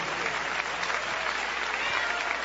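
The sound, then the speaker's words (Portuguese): Church audience clapping in praise to God: a dense, continuous patter of many hands that stays steady and fairly soft from start to finish, with no breaks. “Pode louvar a Deus com as palmas, meus irmãos.”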